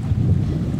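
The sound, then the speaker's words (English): Wind and lake water outdoors, with trees nearby, make a brief, steady low rushing and buffeting noise with no distinct events. “There's the lake, the wind, and the trees.”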